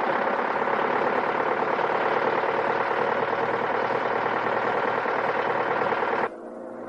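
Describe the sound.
A truck engine drones steadily while driving, a loud, even low rumble that drops suddenly to a quieter hum just before the end.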